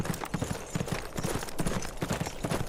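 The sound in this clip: Horse hooves clip-clop in a quick, even rhythm, many hoofbeats from a cavalry squad setting out at night, moderately loud with no voices.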